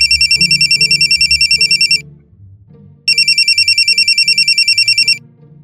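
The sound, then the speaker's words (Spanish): A telephone rings with an incoming call, giving two trilling bursts of about two seconds each separated by a short pause, bright and loud. “Al retirarse Sandy, Wendy recibe la llamada de su primo papayo.”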